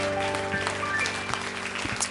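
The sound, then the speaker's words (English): An audience claps in praise during a worship service, a sustained, lively clatter of many hands with a few sharper claps standing out from the mass. “clap of praise. He's worthy.”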